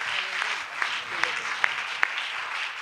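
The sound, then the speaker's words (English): A church audience claps in welcome for a guest minister at an evening service, a continuous wash of applause with a few sharper, louder claps standing out at intervals. “Let's give a good hand of welcome to Brother Webster as he comes to minister to us this evening.”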